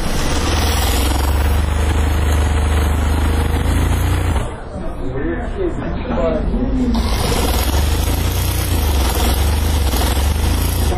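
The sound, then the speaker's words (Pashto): Loud, steady mechanical whir of sewing machines stitching rolled wool caps in a tailor's shop. It runs continuously, then drops away briefly midway while a voice speaks, and returns at full strength. “هر یو په خپل ماشین او کار سر ټیټ کړی او مخې ته پراته تاو شوي پکولونه ګنډي.”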